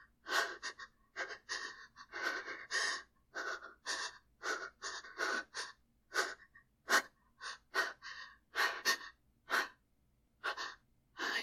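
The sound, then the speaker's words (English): Shallow, panting breaths come in many short, airy bursts in an irregular rhythm, soft and breathy, with no words. “My breath coming in shallow little bursts.”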